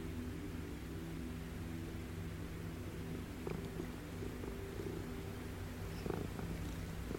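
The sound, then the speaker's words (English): A very friendly cat purring: a steady, low rumbling drone with a soft, grainy texture that holds at an even level throughout, with no voices. “as you whisper sweet little nothings to this most friendly of cats”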